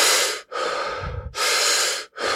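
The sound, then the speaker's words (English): Intense conscious connected breathing, loud rushing breaths following one another in quick succession with almost no gap between them, alone without talk. “it's also more when I talk about the conscious connected breath, it's also more intense breathing, like you,”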